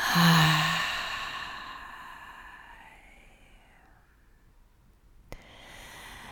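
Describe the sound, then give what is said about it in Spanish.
A slow, deep breath is drawn in through the nose and let out through the mouth during a gentle guided breathing meditation. The soft, airy rush is strongest at the start and fades away, with no talking. “inhalar profundo por tu nariz. Exhalar por tu boca.”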